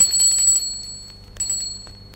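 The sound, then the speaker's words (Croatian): A small hand bell is rung twice, each a bright, high, shimmering burst that rings on and slowly fades before the next. “Ako li vam teško nije, ovim zvoncem pozvolite.”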